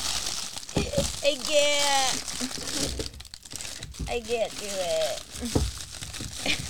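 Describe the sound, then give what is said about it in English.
Crinkling and tearing of wrapping as a wrapped gift basket is ripped open: uneven bursts of crumpling and ripping under excited voices talking and squealing. “Rip it open! I'm done. She ripped it open.”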